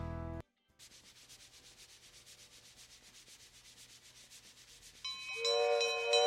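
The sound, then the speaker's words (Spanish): An approaching train gives a steady, rhythmic rumbling and clatter. Near the end it grows louder as a bright, tonal, horn-like sound joins in. “¡Miren! ¡Ahí viene el tren! ¡Qué tren más lindo!”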